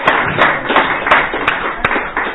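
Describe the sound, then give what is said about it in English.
Audience applause: a dense, steady wash of crowd clapping, with sharper individual claps standing out at a fairly regular rhythm. “let's give another round of applause for Deborah. She did a great job.”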